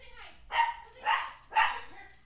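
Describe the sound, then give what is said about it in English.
A dog barks three times in a row, evenly spaced, each bark a short, loud, mid-pitched burst with quiet gaps between. “The dog's barking now. Is the dog in on this?”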